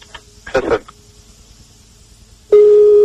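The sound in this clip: A telephone ring tone on a call line: after a few faint, brief noises, a loud, steady, even-pitched tone starts and holds to the end.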